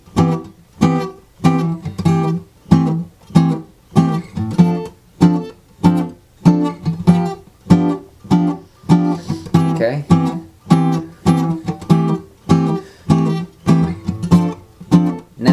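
Guitar comping through a chord progression in middle-string voicings, starting from a first-inversion C major chord, with each chord struck four times; many evenly spaced chord stabs in a steady pulse, with no voices.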